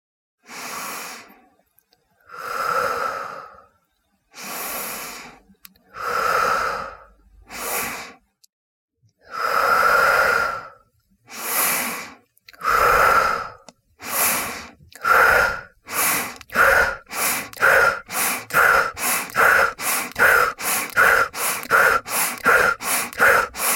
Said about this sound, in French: Nous allons maintenant accélérer ce rythme graduellement, puis finir par ce que nous appelons la respiration du feu. Sentez l'effet purificateur et énergisant. Continuez à respirer par le nez et suivez mon rythme.